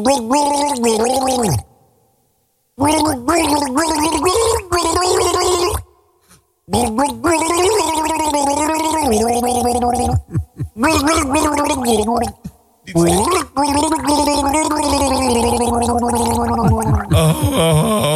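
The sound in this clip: A person gargles a tune, producing loud, bubbling, tonal notes whose pitch wavers and slides in sung phrases, broken by a few short silent pauses.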